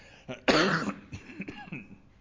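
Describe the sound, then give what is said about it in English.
A preacher gives one harsh, loud cough during a sermon, led by a small catch in the throat and trailing into faint, raspy throat noises. “Pardon me, it might be a long coughing sermon.”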